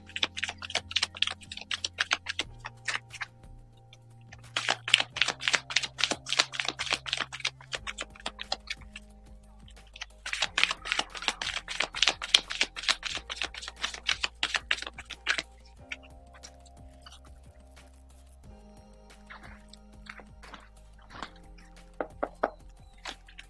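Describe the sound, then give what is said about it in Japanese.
Tarot cards being shuffled give several bursts of rapid, crisp clicking and fluttering, separated by short pauses, over soft steady background music. “それじゃあちょっとシャッフルしますのでお待ちくださいね。”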